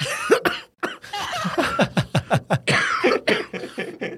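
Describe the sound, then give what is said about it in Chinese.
A sudden coughing fit: one person lets out a rapid series of many harsh, choppy coughs in quick succession, loud and uneven, with only brief gaps for breath. “抱歉，我突然爆咳一下，我突然爆咳了一下。”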